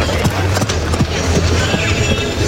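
Hoofbeats of a horse entering a dressage arena at a working trot, a steady rhythmic run of many muffled thuds over a continuous low rumble.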